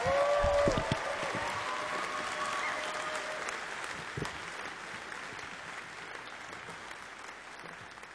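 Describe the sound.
Audience applause for a performer at the Mountain Stage live music show, loudest at the start and then thinning into a steady, gradually fading patter of claps.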